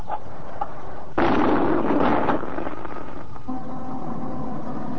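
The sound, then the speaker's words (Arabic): An iftar cannon fires at sunset in Alexandria: one loud, deep boom that bursts out and rumbles for about a second, then fades into a low, steady hiss. “هنا الاسكندرية وانطلق مدفع الافطار. حان الان سيداتي وسادتي موعد اذان المغرب.”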